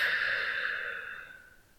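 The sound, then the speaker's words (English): A slow exhaled breath gives a soft, airy whoosh that lasts just under two seconds. It gradually fades away, heard alone and fairly quiet. “Breathe in. I'll hold it. And breathe out.”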